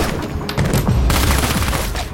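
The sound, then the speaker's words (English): Gunfire as a fish tank explodes behind the target: several sharp, loud cracks in quick succession, then a dense crashing, clattering burst that carries on to the end with no voices. “The fish tank behind Discount explodes as Coach shoots him.”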